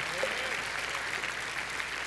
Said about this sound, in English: Put your hands together and let's thank him for his grace and his mercy.